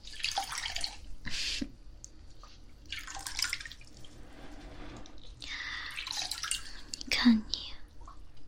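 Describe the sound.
Water drips and splashes as someone is being bathed. It comes in several broad hissing bursts, with soft whispering at times.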